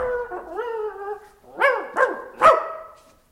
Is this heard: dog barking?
yes

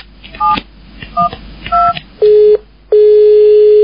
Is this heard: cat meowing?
no

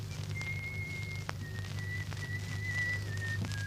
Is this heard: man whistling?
yes

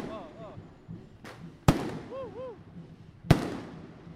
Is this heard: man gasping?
no

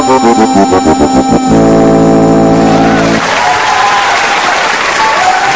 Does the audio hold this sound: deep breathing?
no

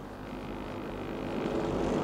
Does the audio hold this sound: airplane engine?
yes

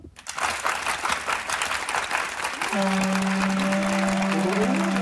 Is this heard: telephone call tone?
no

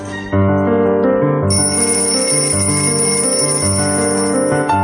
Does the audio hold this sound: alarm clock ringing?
yes

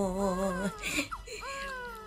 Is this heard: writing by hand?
no

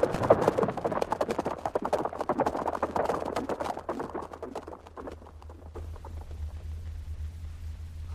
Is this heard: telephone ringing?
no

